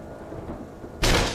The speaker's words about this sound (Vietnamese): Rầm. Tiếng cánh cửa đã bị đánh cho vỡ tung ra.